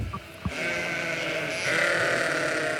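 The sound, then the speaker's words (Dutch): A flock of dozens of sheep on a German farm bleating together in a dense, continuous chorus that swells noticeably louder in the second half. “Als schapenboer Gert Janke aankomt rijden, kijken tientallen schapen enthousiast op en rennen ze onmiddellijk naar het hek toe”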